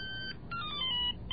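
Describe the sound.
A mobile phone ringtone with an ominous ring plays as a short electronic melody of sustained tones shifting between a few notes, faint and steady, with no voices.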